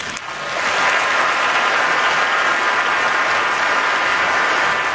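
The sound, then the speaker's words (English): Steady applause from a crowd at a police officer's funeral as the injured father walks off stage, a dense continuous wash of clapping that swells in quickly and holds loud throughout, with no speech over it. “Applause for the injured father of Peter Jerving. That is Douglas Jerving. He grabs the hand of Patty Jerving, the mother, and walks off stage to applause.”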